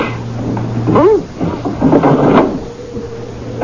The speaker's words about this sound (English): Open the window, sister.